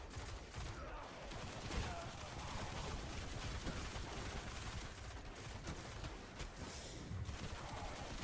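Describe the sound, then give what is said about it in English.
Machine gun fire in a video game, a dense, unbroken rattle of rapid shots that keeps a steady, heavy level through the whole stretch. “Even with the fucking primary machine gun, so I can't even get his shit down.”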